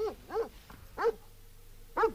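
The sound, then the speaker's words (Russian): Dogs barking: four distinct mid-pitched barks, two in quick succession, then two more spaced apart, over a faint low background hum. “Что это? Собаки, Билли. Собаки.”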